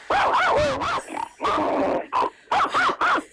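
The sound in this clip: A human voice imitates a dog ready to bite, making a run of throaty growls and snarling grunts followed by several short, clipped barking bursts, all loud and close.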